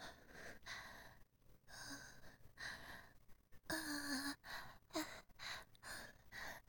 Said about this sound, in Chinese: 喘息60秒，可以，等一下。